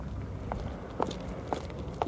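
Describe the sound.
Footsteps cross a street after the cars have stopped: four even, distinct steps about half a second apart, moderately loud and without speech.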